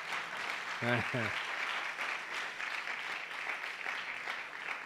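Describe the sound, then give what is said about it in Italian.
An audience applauds with sustained clapping from many hands, a dense and fairly faint patter that stays even throughout. A voice speaks briefly near the start. “Facciamo un applauso a Michele.”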